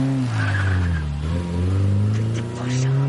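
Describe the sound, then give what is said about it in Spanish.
A taxi pulls away with its engine revving hard and tyres skidding and squealing across the road surface, a loud, continuous roar that rises and dips in pitch over a few seconds. “El taxi se aleja.”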